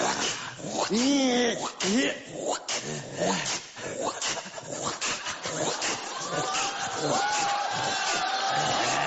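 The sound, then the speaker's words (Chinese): A person imitates their dog with loud, strained dog-like whines, yelps and howling cries that run continuously for several seconds, rising and dropping in pitch between bursts. “学我们家狗啊！我们家狗就这样”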